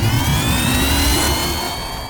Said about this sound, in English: Hitting double turbo booster.